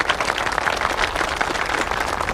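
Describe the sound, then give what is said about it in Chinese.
Crowd applause welcoming a visiting official: dense, continuous clapping from many hands, steady and fairly loud throughout with no pauses. “来，各位，咱们用最热烈的掌声欢迎领导的到来。”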